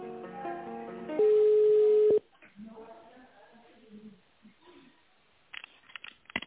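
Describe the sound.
Telephone line tones while a call is transferred: a stepped electronic tone pattern gives way to a long, steady beep lasting about a second, then faint voices on the line.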